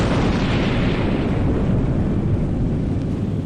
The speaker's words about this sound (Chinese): 原子弹的巨响尚未散去，中国核武器研制的步伐已再次跨越。